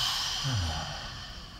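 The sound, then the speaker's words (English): A deep breath is let out through the mouth in one long, soft, breathy exhale carrying a low sighing voiced tone, quiet and fading gently. “Deep breath. Deep breaths. Out through your mouth.”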